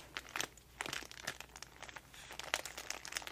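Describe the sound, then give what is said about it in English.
Crinkling of stationery packaging, with crackly rustles of wrapping handled in many quick bursts that run on steadily at a soft level, and no voices. “more delicious crinkles”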